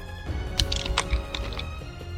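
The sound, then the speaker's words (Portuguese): Frantic typing on a computer keyboard during a live games show: a few quick, sharp key clicks over a steady low hum. “Quem tá digitando loucamente?”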